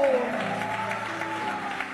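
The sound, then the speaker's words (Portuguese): An audience claps during a church worship service, with dense, steady applause throughout. “Palmas que glorifica Ele. Palmas que glorifica. Palmas que louve ao nome do Senhor.”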